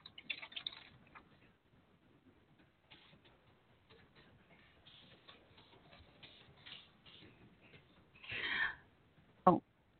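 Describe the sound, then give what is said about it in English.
Faint, rapid typing on a computer keyboard during a chat-room conversation: a steady patter of light keystrokes, with a couple of louder clacks near the end. “I'm in the chat room talking to Captain James, and I type like I talk. I talk fast.”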